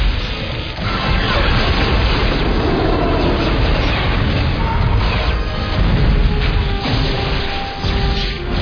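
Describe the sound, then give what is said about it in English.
Disruptor weapons fire and explosions tear through a starship in a dense, continuous barrage of loud booms and crashes that hold steady across the whole stretch with hardly any letup. “Target all shield coordinates, Beta 3. All disruptors, fire!”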